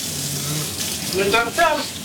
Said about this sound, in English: But first, you need to wash my hands. Oh, wash your hand first. Good. I should also wash my hand too.